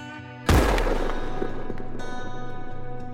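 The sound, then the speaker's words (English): Sharp crack of a single gunshot fired in the desert to scare off a prowling cougar: one loud, abrupt burst with a long fading tail, over a steady low tonal drone and without any voices. “piercing through the air is the crack of a gunshot.”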